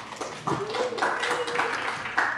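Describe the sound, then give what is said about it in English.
Audience applause welcomes a speaker at an evening study gathering in Huntington Beach. The clapping is fairly dense and uneven, with a few sharper bursts, and faint ringing tones sit underneath. “So if you would, please give him a hand.”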